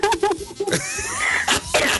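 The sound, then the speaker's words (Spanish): A person coughs in a few harsh, rough bursts mixed with brief voiced vocal sounds. The coughs are short and fairly loud. “Ah, qué tosecita, tome miel con limón para que se le quite.”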